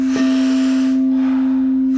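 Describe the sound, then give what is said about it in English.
A big, powerful inhale followed by a softer exhale during a guided breathing exercise, two broad airy breaths over a steady low tone. “Big, powerful inhale, soft exhale.”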